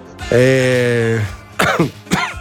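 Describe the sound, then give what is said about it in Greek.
A person coughs. A long, voiced, throaty tone comes first, then two harsh coughs in quick succession, loud and rough. “συμπαθάτε με για το βήχα”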